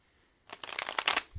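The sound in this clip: Cards shuffled for a card reading: a quick riffle of soft papery flutters lasting about a second, fairly faint, with no voices.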